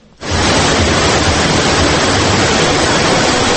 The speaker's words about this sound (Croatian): Upravo ovaj šum rijeke Vrbas očarao je mnoge posjetioce Evropskog prvenstva za kajakaše i kanuiste do 23 godine, koje je održano u kanjonu Tjesno nadomak Banja Luke.